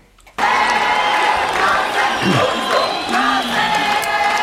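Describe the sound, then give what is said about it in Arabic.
Crowd cheering bursts in abruptly after a brief quiet moment, then holds as a loud, sustained roar of shouting and whooping voices from a large gathering. “تشجيع. اسمعها مو نحن بنشجع معهم كمان.”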